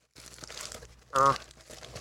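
Packing tape crinkles as a heavily taped object is opened: a low rustling, with one louder crunching burst near the middle.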